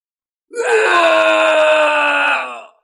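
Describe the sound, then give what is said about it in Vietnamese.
Two men scream in pain and terror in one sustained, strained wail of about two seconds. The cry is loud, harsh and rich in overtones, with no talk around it. “Hai người thê lương kêu to, có đau nhức, nhưng nguyên nhân càng nhiều là xuất phát từ sợ hãi.”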